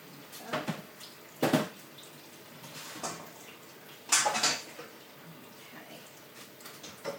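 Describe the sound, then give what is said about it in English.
Cooked pasta is drained from a saucepan into a sink: a few separate splashy gushes of pouring water, quiet overall, with short faint trickles and light pot sounds between them. “Right, now, pasta, let's drain you.”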